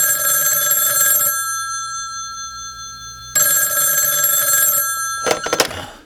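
A telephone rings in two long bursts about two seconds apart, each a bright, steady, multi-tone electronic trill, and a brief rattling noise follows the second ring.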